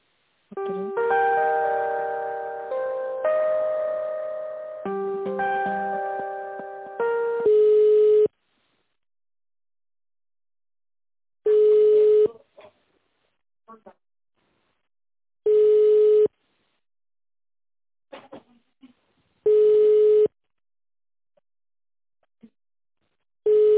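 Telephone line tones during a call transfer: a short electronic melody of stepped tones plays, then a single steady ringback tone repeats several times at regular intervals, with silence and faint clicks between.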